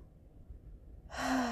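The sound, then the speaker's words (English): A deep breath is drawn in through the nose during a guided breathing meditation. After near-silence, one short, breathy inhale swells quickly and stays loud at the end. “Inhaling through our nose.”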